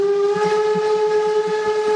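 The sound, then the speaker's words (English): A passing train's whistle holds one steady, high tone for the whole moment, with a low, rhythmic rumble and thudding beneath it. “Yep, there's that train.”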